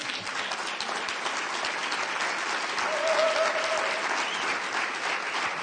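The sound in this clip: An audience applauds to welcome a guest speaker at a church service, with dense, steady clapping that lasts the whole time and swells slightly midway.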